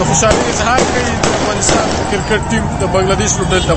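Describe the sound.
Celebratory gunfire rings through city streets after Afghanistan's national team beat Bangladesh: several sharp, loud cracking shots in an irregular sequence, with a voice talking over them.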